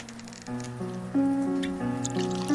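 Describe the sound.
A drink is poured from a freshly opened bottle, the liquid gurgling with a tonal ring whose pitch steps upward as the vessel fills, fairly quiet and alone.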